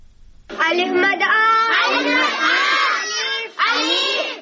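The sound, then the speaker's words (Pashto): Village children gathered at an informal school in Peshawar shout together in loud, continuous, high-pitched voices that rise and fall in unison without a break. “دا د پیښور د یو کلی پاوکی ماشومان دي چې د زده کړو لپاره په یو غیر رسمي سکول کې راغون شوي.”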